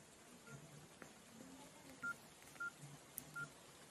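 Touch-tone beeps come from a telephone as a number is dialed during a power cut: several short, faint, evenly pitched tones sound in sequence over low background hiss.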